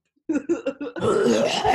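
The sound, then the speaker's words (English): A person fakes a cough with their voice: a few short, choppy bursts, then a longer raspy, throaty exhalation. “I'll just cough on people. I got corona.”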